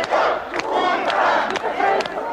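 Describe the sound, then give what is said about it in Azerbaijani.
Thousands of Muscovites shout a slogan in unison outside the parliament during a coup in August, a loud, steady roar of many voices with a few sharper accents. “Avqustun 20-sində minlərlə Moskvalı insan izdihamı parlament ətrafında sipər yaradaraq çevrilişə qarşı durur. Onlar qələbə bizimdir deyə qışqırırlar.”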